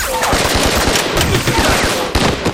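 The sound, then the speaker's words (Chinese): Gunfire crackles in a battle as Japanese troops are engaged. Rapid machine-gun bursts and many sharp, loud shots overlap in a dense, continuous volley. “他们是日本人，开枪！”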